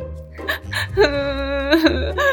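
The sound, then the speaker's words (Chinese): A voice imitates the cartoon character Pupu crying sadly. Choppy sobs and hiccuping breaths lead into a sustained, high, wavering wail, and then more sobs follow. “普普只好背着瓶盖，伤心地哭了起来。”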